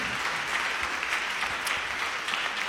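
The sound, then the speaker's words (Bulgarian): Audience applause greets a folk singer from Breznitsa before her performance, a fairly quiet, steady wash of clapping that continues throughout. “Вашите аплодисменти са за Амиде Даракчи”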